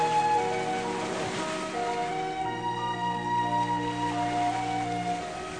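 Ocean waves wash in a soft, steady surf, faint and continuous, with sustained soft tones running alongside.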